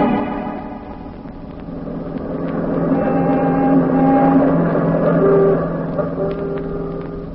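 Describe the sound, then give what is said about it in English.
A car driving, used as a radio drama sound effect for an automobile ride: a steady, low engine drone that swells gradually toward the middle and eases slightly at the end, with no voices. “And now grab your coat, Rusty. We're all going for an automobile ride.”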